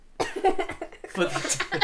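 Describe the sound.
Rough coughing from something stuck in the throat while tasting salted caramel almond ice cream, with a few quick, throaty bursts in close succession.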